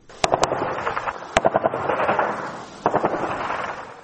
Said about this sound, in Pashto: الیاس دایی تفصیلی رپورت اورو چې د ډزو په غږونو پیلېږي.